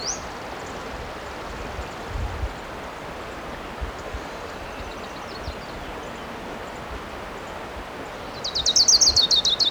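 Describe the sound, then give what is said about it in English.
An orange-crowned warbler sings. A brief high chirp opens, then a long stretch of quiet background, and a loud, rapid, high-pitched trill comes near the end. “I see the bird. It's definitely an orange crown.”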